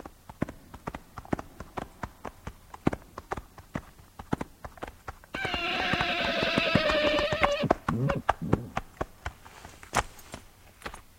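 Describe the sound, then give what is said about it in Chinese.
Hoofbeats of a horse ridden by a hunter carrying a sword through woodland, a steady run of many crisp clip-clop strikes with a sustained tonal sound over the middle part. “这时候远处来了一位骑马佩剑的猎人。”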